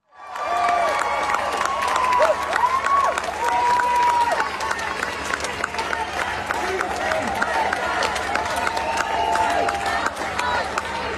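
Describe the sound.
A crowd applauds at a concert in Ireland, a sustained wash of clapping with cheers and shouted voices rising over it. The noise stays loud throughout after a quick start.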